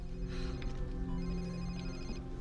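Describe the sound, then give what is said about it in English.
Cell phone ringing inside a bag: a faint, muffled electronic ringtone with thin high tones that repeat over a low background hum. “A cell phone rings in Dina's bag”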